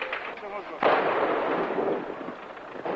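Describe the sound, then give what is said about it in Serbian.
An explosion in a city street: a sudden loud blast about a second in, then a long rumbling decay, with a fainter burst near the end. “Nova eksplozija.”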